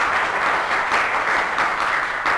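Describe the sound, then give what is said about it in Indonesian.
Applause from a seminar audience at a talk on Chinese culture in Indonesia: dense, steady clapping that holds an even level throughout. “Baik, sekali lagi aplaus untuk dia.”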